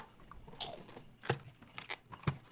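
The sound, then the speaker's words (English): Crinkly, crunchy tearing as a Wendy's value cup box of Cheez-Its is opened, coming in a few short, sharp bursts of rustle and snap with quieter handling noise between them and no talking. “I'm still opening the box.”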